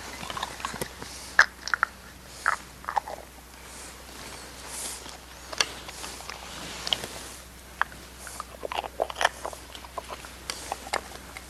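Chewing and mouth smacking from a child eating from a spoon: faint, irregular wet clicks and small bites scattered throughout over a quiet background.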